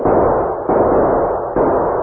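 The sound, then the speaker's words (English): Gunfire sound effect from an audio drama: a few heavy, muffled shots come at irregular intervals, each a dull thud followed by a long rumbling tail that fades before the next one. “While his men kept up a continuous fire”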